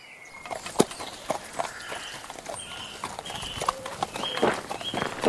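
Horse hooves clip-clop along as a king rides on a road in a told story, a steady, even run of hollow hoofbeats with small bright knocks, moderately loud and alone without talk.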